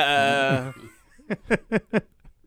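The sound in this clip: A man's voice imitates a goat bleat with four quick, stuttering nasal pulses in a rapid, even rhythm.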